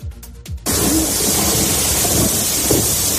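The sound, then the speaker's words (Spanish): Torrential rain pours down in Borriol, in the Valencia region, during a DANA storm that brought flooding; after a brief voice at the start, a loud, dense, unbroken roar of downpour fills the rest. “Sobre todo en la Comunidad Valenciana, donde, como escuchas, en algunas localidades como Borriol se han llegado a caer 180 litros por metro cuadrado.”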